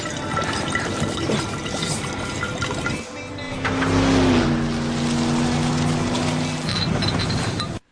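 Water gushes into bottles being filled in a hurry, a rushing pour that swells into a steady, louder stream partway through and carries on until it cuts off near the end.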